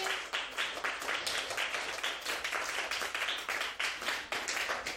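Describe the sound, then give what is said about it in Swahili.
Applause at a church gathering honouring the children's class teachers: many hands clapping in a dense, steady stream of sharp claps that holds at an even level throughout. “Tuwapongeze walimu wetu kwa makofi.”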